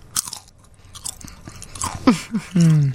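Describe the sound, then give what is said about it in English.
Crunching as someone chews a barbecue-flavoured potato chip: a few crisp, irregular bites and crackles at a moderate level. “This is what a barbecue potato chip sounds like when you chew it on the air.”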